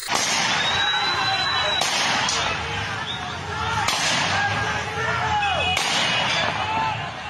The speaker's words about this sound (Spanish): ¡Está disparando! ¡Está disparando!